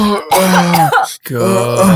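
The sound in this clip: Coughing after inhaling smoke: loud, strained, voiced hacking with raspy, groaning tones, broken by a brief gap partway through before another harsh stretch.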